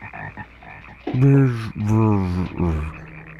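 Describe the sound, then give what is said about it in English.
Frogs croak in a few low, harmonic calls. Short faint croaks come first, then two longer, louder croaks and a brief final one. “And frogs are breaking in the windows. Oh my god. A frog just turned off the record.”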